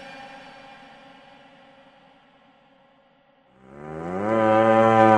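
Cattle moo: a fading, drawn-out low call gives way to a louder, longer moo that swells through the final seconds.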